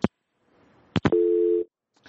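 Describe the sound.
Telephone line tone after a caller's call drops: a few sharp clicks followed by a single steady two-pitch tone lasting about half a second, then silence.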